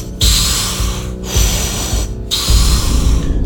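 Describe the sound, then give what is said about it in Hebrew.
Forceful power-breathing exercise: about three long, harsh, rushing breaths, each close to a second, with brief pauses between them. “להפסיק, לנשום חזק. יפה מאוד.”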